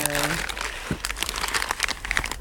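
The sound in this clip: Packaging crinkling and rustling as a package holding glass fragments is opened, a faint, uneven stream of crackles and crunches, with a voice heard briefly at the very start.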